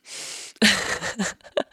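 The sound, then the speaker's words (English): A person with a stuffy, congested nose tries to breathe in through it. A soft airy inhale is followed by several harsh, strained snorting sniffs of uneven length. “this is me trying to breathe in through my nose.”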